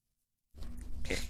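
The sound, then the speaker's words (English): A puppy makes noises in a live radio studio: after a short silence comes a rough, continuous grunting and snuffling sound, with a brief higher whine near the end. “We've got more puppy. More puppy.”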